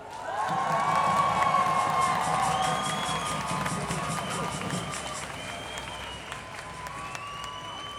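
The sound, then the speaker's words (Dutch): A crowd cheers and applauds to open the program at an International Women's Day feminist march event. The sound is a dense, steady wash of clapping with whoops and whistles, loud at first and then easing slightly. “Graag een heel warm en luid applaus”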